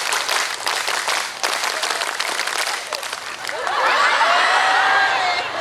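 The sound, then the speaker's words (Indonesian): Group clapping at a gathering, performed on command as a scout-style clap routine: dense, loud clapping from many hands, followed by a burst of high, tonal cheering and whistling from the crowd. “Coba semuanya, tepuk 1. Malah kayak gini kok kompak. Tepuk 1. Tepuk 2. Tepuk 3. Tepuk pramuka.”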